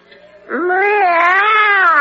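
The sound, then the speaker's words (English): A human voice imitates a cat's meow: one long, drawn-out, whiny tone lasting about a second and a half. It is loud and alone, and its pitch bends slightly as it goes. “And this is my friend, the cat. Meow.”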